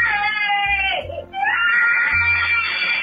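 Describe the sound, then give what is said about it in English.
A young girl cries loudly during a tantrum, recorded on a phone. Two long, high, strained wails are split by a short catch of breath in the middle. “This is her little tantrum this afternoon that's been going on for nearly two hours.”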